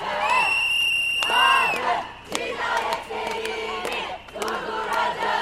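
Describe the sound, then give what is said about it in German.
About 300 women chant together at a protest against violence against women in Kadıköy, Istanbul: loud, high, rhythmic shouted phrases repeated in unison with short pauses between them. “Gemeinsam mit etwa 300 anderen Frauen, die sich im Istanbuler Stadtteil Kadıköy versammelt haben, um gegen Gewalt gegen Frauen zu demonstrieren. Sie rufen gemeinsam: Wir werden Femizide stoppen.”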